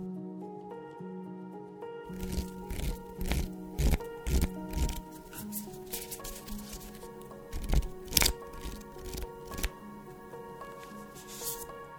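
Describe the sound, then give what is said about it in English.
Cards being handled as one is drawn at random from a Gabrielle Bernstein affirmations deck, with a series of soft crinkly rustles and taps over sustained background music. “I will be pulling a card at random from my affirmations card deck by Gabrielle Bernstein.”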